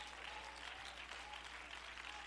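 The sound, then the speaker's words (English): Congregation clapping hands in praise during a church sermon, a steady, dense patter of many hands, faint and continuous throughout. “Come on, clap your hands and let's give praise to the Lord.”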